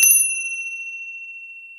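A bell chime marks the hour with a single bright, high-pitched strike that rings alone and slowly fades over almost two seconds.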